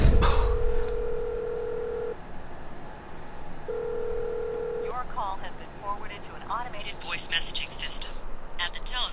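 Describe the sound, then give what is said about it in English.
Telephone ringback tone of an outgoing call: two long, steady, even tones separated by a pause, then talk takes over. “She just sent me straight to voicemail.”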